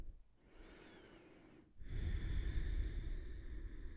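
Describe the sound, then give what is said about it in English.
Deep breaths are taken during a seated yoga stretch for stress release. A soft, airy inhale is followed by a longer, louder exhale that rushes out steadily, all faint and without talk. “We're going to take a couple more massive breaths here”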